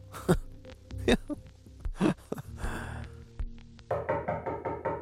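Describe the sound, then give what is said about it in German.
Knocking on an apartment door: a few sharp, separate knocks spaced irregularly over several seconds, with no one speaking. “Es klopft an seiner Wohnungstür.”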